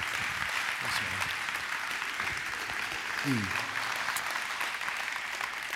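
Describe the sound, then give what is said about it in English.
Sustained applause from a church audience in Kansas City welcoming a guest minister, a dense, steady wash of clapping that holds at an even level throughout, with voices faintly mixed in. “I want you to put your hands together and give a big Kansas City welcome to Clayton King as he comes to minister to us today”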